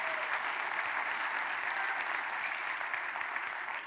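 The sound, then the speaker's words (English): A church audience claps in steady, dense applause, a continuous even wash of hand claps at moderate level with no voices rising above it. “And now you clap, Jesus is Lord.”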